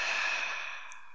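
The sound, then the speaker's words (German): A deep breath is exhaled slowly through the mouth during a guided relaxation breathing exercise. The breathy hiss is soft and fades gradually over about a second, with no talk. “Und dann atme ganz tief und entspannt durch deinen Mund wieder aus.”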